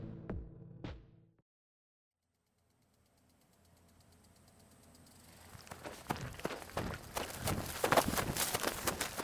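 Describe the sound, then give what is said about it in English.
Running footsteps from someone fleeing on foot: near silence gives way to a gradual build of rapid, heavy thudding steps that grow louder and denser over the last few seconds. “Oh, I haven't run like that in forever. Oh, I'm out of breath.”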